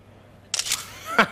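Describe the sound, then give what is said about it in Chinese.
A camera shutter fires with a quick pair of crisp, high clicks over a quiet background, followed by a short voiced sound. “又要拿我照片当壁纸啊。”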